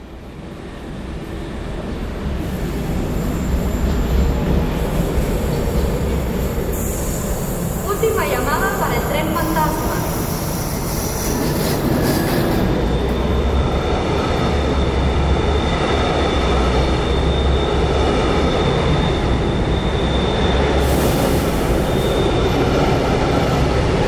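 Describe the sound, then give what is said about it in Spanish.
A train runs on reopened railway tracks on the Los Mochis to Veracruz route, recorded in 1999. A loud, steady rolling rumble carries on throughout, with a brief squeal of wheels partway through. “las vías del ferrocarril volvieron a funcionar por algunas semanas para un programa de radio. El acto fantasmagórico de reanimación fue transmitido en 1999 por la BBC.”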